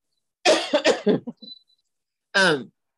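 Coughing from a tickle in the throat: a quick run of several harsh coughs, then a couple of fainter throat sounds, and after a short pause one more cough, all against silence.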